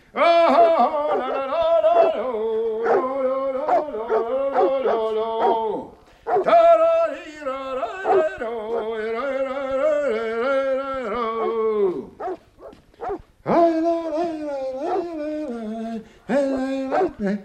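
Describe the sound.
Dogs bark and whimper in long runs of yelping, whining cries that waver in pitch, coming in busy bursts broken by a few short pauses.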